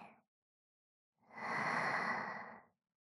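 A single long, deep inhalation during a relaxation breathing exercise, a soft, steady rush of air lasting about a second and a half that swells and fades on its own.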